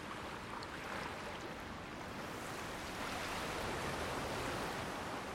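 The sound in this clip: Ocean waves wash onto a palm-fringed beach in a steady, even rush of surf that stays fairly constant throughout, with no voices.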